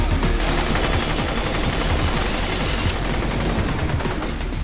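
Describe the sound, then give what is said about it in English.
Gunmen open fire in an office, a dense, loud barrage of rapid shots blurring into one continuous roar that does not let up. “whirling his swords to deflect all the shots being fired at him”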